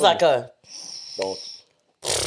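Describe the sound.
A person imitating loud snoring with the voice, making a few rasping, breathy snore sounds with a thin whistling tone, between stretches of talk.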